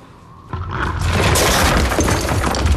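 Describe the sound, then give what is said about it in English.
Small pieces of stone tumbling down a rock face: after a quiet half second a loud crashing rumble sets in and builds into a sustained, gritty clatter and roar that lasts to the end. “At the noise, he swings round and sees some little pieces of stone tumbling down the rock face.”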